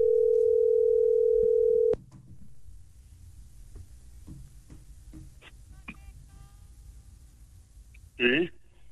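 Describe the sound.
A telephone dial tone holds steady and loud for about two seconds, then cuts off. Faint clicks and low rumble follow, with a short burst of sound near the end.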